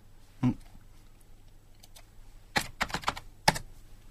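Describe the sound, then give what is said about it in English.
Computer keyboard typing as a name is entered into a Google search: one isolated key tap, then a quick cluster of sharp clicks and a final tap, with no talk over them. “Type in Igor with an I.”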